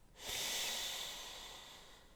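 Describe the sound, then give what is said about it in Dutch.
A single breath in during a calming breathing exercise: a soft, airy hiss that swells quickly and then slowly fades over about two seconds, heard alone. “Glimlach en adem in.”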